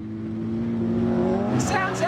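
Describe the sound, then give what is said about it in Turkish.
Loud, continuous engine roar from an off-road Baja vehicle, a deep, steady, race-engine-like drone that shifts and surges briefly near the end. “Motor tam bir yarış motoru gibi ses çıkarıyor. Çok güçlü geliyor yani.”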